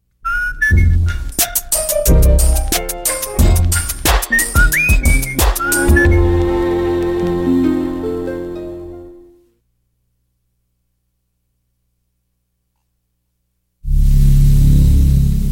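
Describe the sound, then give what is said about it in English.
Northern Lights picked up by a very sensitive low-frequency radio receiver in the auroral zone near Churchill, Manitoba: loud, dense whistling tones, chirps and sharp crackles that fade into silence, followed by a sudden burst of rushing static. “Manitoba, and beyond in order to try to record the sound of the Northern Lights.”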